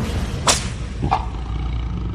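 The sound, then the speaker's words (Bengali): A whip cracked against the ground during an attempt to recapture an escaped circus tiger: one sharp, bright crack followed by a fainter second snap, over a steady low background hum. “হাতে চাবুকটা মাঝে মাঝে সপাং করে মাটিতে মেরে চন্দ্রন”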